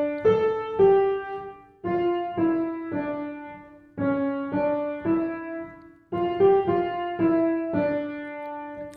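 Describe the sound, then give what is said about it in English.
Bach's Art of Fugue theme, played as it appears in the 11th fugue, unfolds as a slow single melodic line of sustained, clear tones, grouped into phrases separated by brief breaks. “Finally, you're going to hear the good old Art of Fugue theme again at the beginning, and it sounds like this.”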